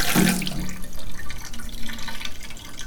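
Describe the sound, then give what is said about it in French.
Water runs from a tap into a bathtub with a steady, continuous rushing splash. It holds at an even level from start to finish, with a brief brighter gush at the very beginning. “Ou est-ce que tu peux faire couler un peu d'eau dans la baignoire pour voir si ça. Ouais, je fais couler un peu d'eau.”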